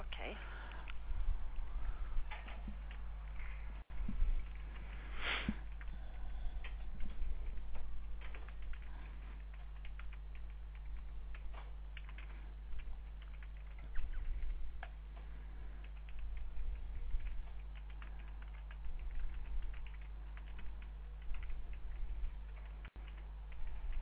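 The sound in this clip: Keys clatter on a computer keyboard as notes are typed in, a quiet, steady patter of irregular keystrokes running the whole length, with occasional talk alongside.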